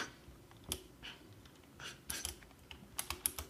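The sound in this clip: Quiet typing of a message on a computer keyboard, with irregular, sparse clicking keystrokes and a quicker cluster of taps near the end.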